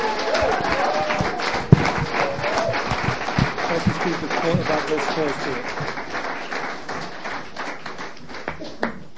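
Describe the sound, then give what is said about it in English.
Audience applause welcomes a speaker at a recovery meeting: many steady, crisp claps run throughout with a voice audible underneath. “Och nu en applåd till våran talare”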